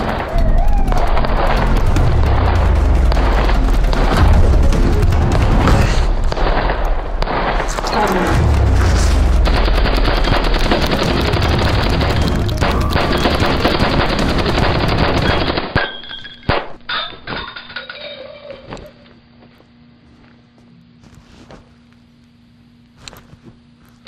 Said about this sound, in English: Shots fired.